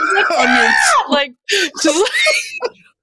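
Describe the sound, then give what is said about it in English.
An adult voice imitates the shrill screaming they made as a child riding a rocking horse, with a few loud, high vocal bursts separated by short gaps. “As I was a kid, and I would just go for it on this rocking horse. And I would just be screaming.”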